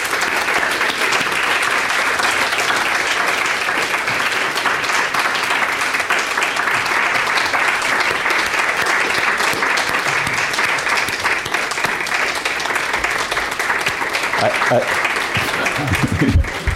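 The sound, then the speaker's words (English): An audience applauds at an event honoring research proposal awardees who are called to the front, with dense clapping that stays steady and loud for the whole stretch. “I'm hurrying too much, stepping on the applause.”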